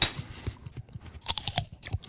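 Someone crunches and chews an apple, core included, producing many quiet, crisp, irregular crunches and moist chewing clicks in an uneven rhythm, with no talk.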